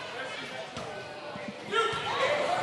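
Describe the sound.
Basketball dribbled on the court during a game between the Carroll Tigers and Brown City; a few dull low thumps sound under steady play-by-play commentary.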